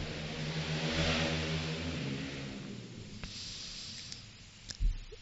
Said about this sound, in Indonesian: kayaknya di jam segini ini ada yang naik motor keras kayak gitu ya